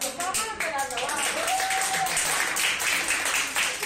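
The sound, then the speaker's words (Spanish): Applause from the ICU team of Hospital Vitas in Valencia: steady, lively clapping throughout, with voices over it. “Mira, estos son los aplausos del equipo de la UCI del Hospital Vitas de Valencia.”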